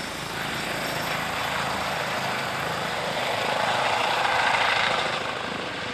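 An emergency doctor's helicopter in flight gives a loud, steady rotor and engine drone throughout, swelling slightly near the end, with no voices.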